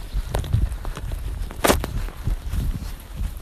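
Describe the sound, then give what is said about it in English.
Footsteps of a person out on a run outdoors: a steady patter of footfalls over constant background noise, with one sharper, brighter impact partway through. “I'm out for a run. Look, I checked my watch. I've been running for 5 minutes.”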